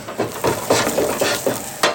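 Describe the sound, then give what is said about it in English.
A spoon scrapes and stirs spaghetti alla assassina as it burns and sticks to the bottom of a pan, in repeated rhythmic strokes over a low sizzle. “It's all sticking to the bottom. It's really burning. I might be ruining this pan.”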